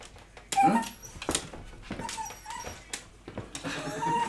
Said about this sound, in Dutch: Mijn hond geeft even een concert.